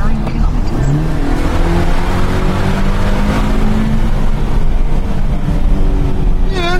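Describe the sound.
A car engine drones loud and steady through a toned-down exhaust, with the pitch of its hum slowly shifting.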